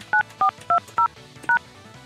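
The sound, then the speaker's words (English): Five telephone keypad touch-tones entering a five-digit voicemail password: short, loud, evenly spaced dual-pitch beeps, with a slightly longer pause before the last one and quiet background between them. “Enter the new password between 4 to 7 digits, then press pound.”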